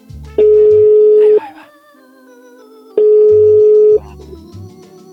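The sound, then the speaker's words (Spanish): Telephone ringback tones as a call is placed: two long, steady electronic beeps of about a second each, separated by a pause, over a low buzzing hum. “¿Ya le estás marcando?”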